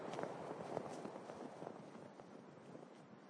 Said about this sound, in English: Lyra spots the glimmering outline of a polar bear approaching.